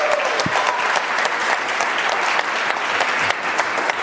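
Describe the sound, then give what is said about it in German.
Audience applause for the guessers at a lighthearted gadget-guessing event, a dense, even patter of many hands clapping steadily for about four seconds with no pauses. “einen besonderen Applaus für alle Ratenden.”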